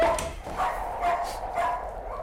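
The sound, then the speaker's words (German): A dog barks in short, yappy bursts, about four of them spaced at a steady rhythm, fairly faint over a continuous low background hum. “Und nimm den verfluchten Köter mit.”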